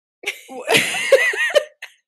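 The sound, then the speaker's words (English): A woman still coughing weeks after COVID lets out a few sharp, raspy bursts. They come in an uneven series of separate hacks over about two seconds, some with a voiced, laugh-like edge, and are loud between short silences. “I had COVID a few weeks ago. And my cough is like really exacerbated right now, so yeah.”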